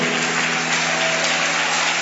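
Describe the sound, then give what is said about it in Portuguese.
A church audience applauds during a service. The dense, steady wash of clapping hands stays loud and even from start to finish, with no voices standing out. “Vamos aplaudir ao Senhor.”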